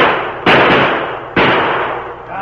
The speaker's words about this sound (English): Stand aside. Let me get aim. Watch out! The sheriff's going to shoot!